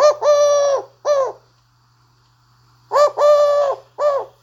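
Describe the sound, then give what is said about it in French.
A Eurasian collared dove sings its soft three-note coo twice: a short note, a longer sustained middle note and a brief final note, then a pause of over a second before the same phrase repeats clearly and alone. “Voilà le doux chant de la tourterelle qu'on connaît si bien.”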